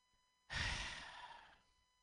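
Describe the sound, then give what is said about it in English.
A single deep breath, a soft breathy rush that starts abruptly, then tapers and fades over about a second, quiet and alone against silence. “I'm going to take a deep breath here.”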